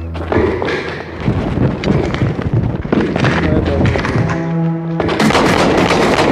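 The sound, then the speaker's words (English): Gunfire from a realistic-looking video game: loud, dense volleys of rapid shots and booms that fill the whole stretch, with voices at times. “Shots fired.”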